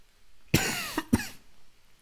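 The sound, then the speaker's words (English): A lingering dry, non-productive cough from a person: two sharp, loud coughs with a brief catch between them, then quiet. “I have a cough. It sounds like this.”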